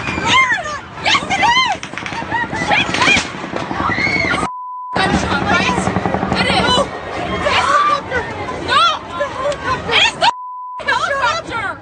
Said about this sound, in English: There were the sounds of a shooting. We've seen sounds of shooting and yelling and chaos so many times on TV.